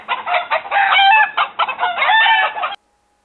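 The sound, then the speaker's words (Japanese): Rooster crowing at dawn, a loud, strained crow broken into a few harsh bursts of rising and falling calls, then cutting off sharply into silence. “コケコッコ。やがて朝になりました。”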